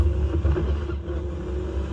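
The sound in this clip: Engine drone of a car driven in a video game through an empty stretch of countryside, a low, steady rumble with a humming tone that wavers slightly, with no talk.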